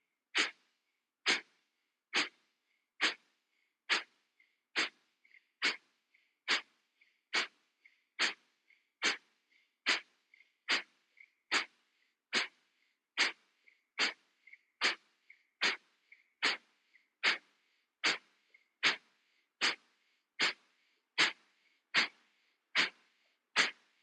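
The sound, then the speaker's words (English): Rapid, deep pumping breaths from a breathing exercise: about thirty forceful, airy huffs in a steady, even rhythm, with faint inhales between them. Nothing else is heard and no one talks. “Final round. Inhale. 30 pumpings. Begin.”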